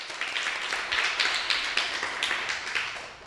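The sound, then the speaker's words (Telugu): Audience clapping at a school recital after a child's song about rain, a faint patter of many hands with small rhythmic surges running steadily for about three seconds. “Prashanth Kumar వర్షాలు ఎందుకు పడాలో చెప్పాడు కదా, అందరూ ఒకసారి చప్పట్లు కొట్టండి.”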